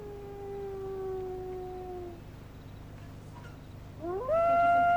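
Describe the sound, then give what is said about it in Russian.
A dog howling outside at night: a long, wavering howl that slides downward and fades, a pause, then a louder howl that rises in pitch near the end. “Да заткните вы эту собаку, люди пытаются заснуть.”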